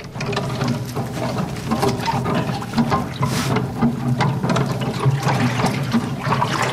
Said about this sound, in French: c'est une grande pâle en bois en fait, plongée dans l'eau.